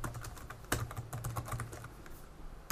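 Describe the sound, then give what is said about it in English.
Faint typing on a computer keyboard: soft, irregular clicks and taps of keys, with a few louder strokes standing out. “So type in ACC, space, and then the hash key, because you're asking him what is his Liberty Reserve account number.”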